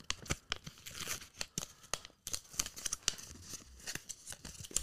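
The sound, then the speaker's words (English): A sticker being peeled and pressed over another sticker, a faint, irregular series of sharp crackly tearing and crinkling bursts with no voices. “You just put that over a different sticker. I know, I know. Oh, the Go-Go Gorillas. Got a round boy here.”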